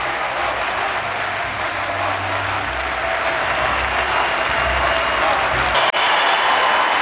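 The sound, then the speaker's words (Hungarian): Crowd roar at an Olympic victory, with fans chanting Hungarian support. The sound is a steady, dense wash of voices and clapping that holds one level and then cuts off briefly near the end. “közben jó néhány helyről zúgzeng a hajrá, magyarok, hallgassák egy picit.”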